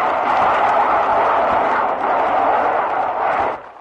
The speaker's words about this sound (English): There goes another pair of rockets right in front of them.